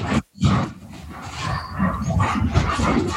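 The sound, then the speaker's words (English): Dogs being let into a house, giving a loud, rough, growling rumble that cuts out briefly near the start, then resumes and carries on steadily with no talk. “dogs just got let in the house.”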